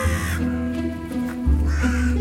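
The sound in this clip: A crow cawing: two harsh, raspy caws separated by a pause, over a low rumbling background.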